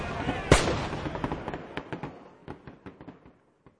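Gunfire: one loud sharp crack, then many quicker, quieter shots in a ragged scatter that thin out and stop just before the end.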